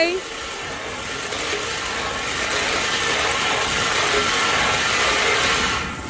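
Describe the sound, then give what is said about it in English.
Whirring, rattling churn of a lottery ball cage spun for a $500 prize draw, a continuous mechanical clatter that builds slightly and holds for several seconds before easing off. “there's only one thing left to do, I reckon, buddy, and I think that might be spin the balls. Are you ready? Let's spin them.”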